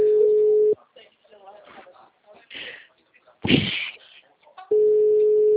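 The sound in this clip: A telephone gives a steady, low single-pitched call tone while a number is dialed. It sounds in two long stretches, with faint voices and handling noises between them.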